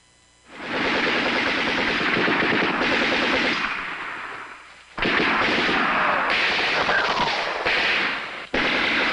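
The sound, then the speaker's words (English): Gunfire from a video scene set in a park: loud, sustained bursts of rapid automatic shots that crackle almost continuously, with a short dip around the middle before the shooting resumes at full strength. “I hear a bullet.”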